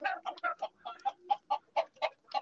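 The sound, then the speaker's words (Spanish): Hens cluck on a farm in Castronuño, Spain, with many short, throaty clucks in an uneven, busy rhythm at a fairly quiet level. “Cartografía Sonora en Onda Nassau quiero recoger el sonido de unas gallinas, gallos y pollitos en Castro Nuño, en la Josa La Vicena.”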